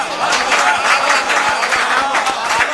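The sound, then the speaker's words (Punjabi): Applause from an audience for a poet at a poetry gathering: dense, sustained clapping that stays loud and steady throughout. “ਤਾੜੀਆਂ”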